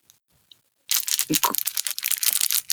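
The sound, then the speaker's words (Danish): Crinkling and tearing of a sugar-free hard candy wrapper being unwrapped. After a near-silent moment with a couple of soft ticks, a loud, dense burst of crackly plastic rustling starts abruptly and runs to the end. “Kun indtil den er blevet pakket ud. Ja. Det er sukkerfri bolcher, jeg har fået af Bodyman.”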